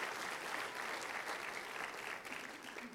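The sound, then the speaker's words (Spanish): A church audience applauding in praise during a Spanish-language sermon, dense and sustained clapping from many people, loud and even, easing slightly past the midpoint before continuing. “Aplauda al Rey de Reyes, Señor de Señores.”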